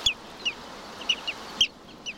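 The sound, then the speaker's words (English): A black-bellied plover calls at its Arctic tundra nesting ground: six short, high, faint notes spaced irregularly over a steady background hiss. “Most migrate to the Arctic in summer, where many nest on the tundra, along rushing streams or on rocky mountainsides, like this black-bellied plover.”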